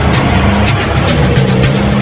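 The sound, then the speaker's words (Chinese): Engines of several Japanese motorcycles carrying soldiers pull up outside an opium den, a loud, steady, rough drone with a low rumbling hum underneath. “突然，在烟馆门外开来了几辆日本摩托车”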